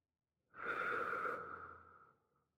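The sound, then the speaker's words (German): Slow breathing during a guided relaxation exercise: one long, soft, airy breath that swells quickly, holds, then fades gradually into silence. “Atmen langsam ein und wieder aus.”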